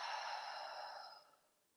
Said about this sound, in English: Taking a breath in and out.